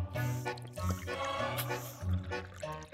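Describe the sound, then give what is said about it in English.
Drinking from a new water bottle gives an airy, hissing suck much like someone vaping, with a few breathy gulping pulses over a steady low hum. “This new water bottle I have, it sounds like I'm vaping. I don't vape. Listen,”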